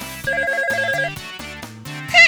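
A telephone rings with a bright electronic ringtone: a few repeated melodic bursts of tones in a steady pattern, fairly loud, with no talking.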